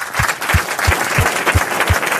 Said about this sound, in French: Je voudrais qu'on fasse une ovation à la jeune femme qui nous rejoint maintenant qui s'appelle Marguerite.